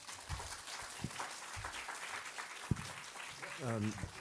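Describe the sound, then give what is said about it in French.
Audience applause starting up, a faint, ragged patter of clapping with a few sharper claps standing out, and a voice speaking briefly near the end. “Vous voyez, le star, c'est différent. Hein, voilà, on commence déjà à applaudir.”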